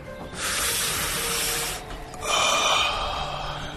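Breathy inhaling of smoke from burning leaves: two long, hissing draws of breath separated by a brief pause, the second slightly louder and trailing off at the end.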